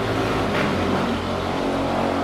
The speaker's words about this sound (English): Apologies for all the car noises. It's rush hour here, and we live like on a pretty busy street for rush hour.